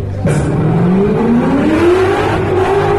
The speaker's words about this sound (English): That's Vaughn Gittins Jr. in the North Energy Carbon Tire Ford Mustang.